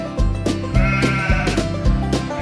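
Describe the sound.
Sheep bleating in a steady, rhythmic series of several wavering, nasal calls, each about half a second apart, with no talk.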